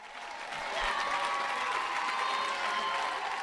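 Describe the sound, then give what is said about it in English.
Hometown fans of the Minnesota Lynx applaud and cheer in the Riverview Theater in Minneapolis while watching a WNBA championship game. A dense crowd roar swells in after half a second and stays loud and steady. “This is the sound of a movie theater, not a sports arena. The Riverview Theater in Minneapolis was packed last night for a free viewing of the Lynx's third match in the best-of-five championship series.”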